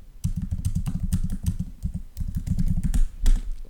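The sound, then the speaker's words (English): Rapid typing on a computer keyboard while entering a web search: many quick keystrokes in a steady, dense patter with a few brief pauses. No voices are heard. “I just typed in how to end a podcast episode.”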